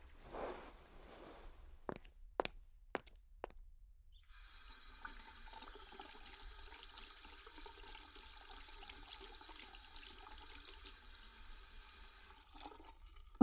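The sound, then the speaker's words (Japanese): A toilet is flushed: a few sharp clicks and knocks lead into a faint, steady rush of running water lasting several seconds, ending with a final click. No voices are heard. “ブラシは置いて、トイレ流して、次は手を洗う。”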